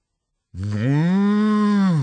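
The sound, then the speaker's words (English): A single long cow moo begins after a brief silence, rising slightly and then holding a loud, steady, deep tone to the end. “It's coming now, says Busy Cow.”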